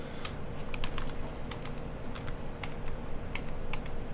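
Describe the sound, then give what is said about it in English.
Typing on a computer keyboard: a quick, steady run of many clicky keystrokes over a constant low background hum, with no talk. “If I could type, that would be good.”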